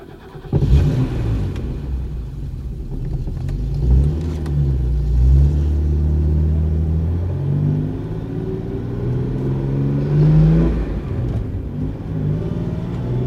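A car engine rumbles and revs, its droning pitch climbing over several seconds before easing back down. A steady low growl runs underneath throughout, with no voices.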